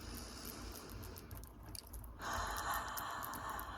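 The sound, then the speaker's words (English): A deep inhale, taken slowly during a calming eyes-closed breathing exercise. It sounds as soft airy noise on its own, growing fuller and brighter partway through, with no talking. “Okay, and then just take a deep breath with me.”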